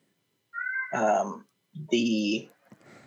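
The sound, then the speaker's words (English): A cat meowing, two drawn-out, high-pitched calls separated by a short pause, fairly loud, followed by faint rustling. “your cat is going crazy back there.”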